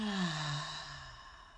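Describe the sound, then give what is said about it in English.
A deep breath out through the mouth during a guided breathing exercise: one long, steady, breathy exhale that fills the moment and slowly softens toward the end, with no talking. “So we'll breathe in through our nose and exhale through our mouth. Breathe in and exhale.”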